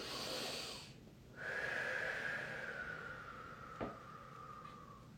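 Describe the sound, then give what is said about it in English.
A deep breath taken during a guided Reiki loving-kindness meditation: long, airy breath sounds with a brief pause between them, heard alone without speech. “Take a nice deep breath.”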